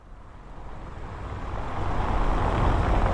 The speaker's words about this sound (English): In the centre of this market square where the traffic is constantly passing round us